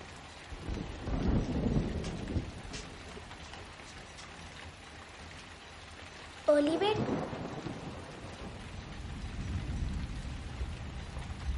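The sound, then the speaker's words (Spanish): Heavy rain pours outside a house as a continuous hiss, with low rumbles of thunder rolling early on and again toward the end. “Fuera llueve con fuerza.”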